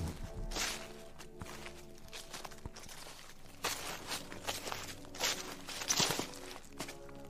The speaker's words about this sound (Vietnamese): Càng đi, tiếng lá khô ở dưới chân cứ lạo xào, làm cho tôi bắt đầu cảm giác sợ hãi.